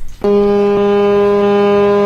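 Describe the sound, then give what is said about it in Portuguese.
Deep, loud horn blast from the Brazilian polar ship Almirante Maximiliano departing Rio de Janeiro, a single steady rich tone that starts abruptly and holds unbroken. “Esse é o som de partida do navio polar Almirante Maximiliano, também chamado pela tripulação de Tio Max.”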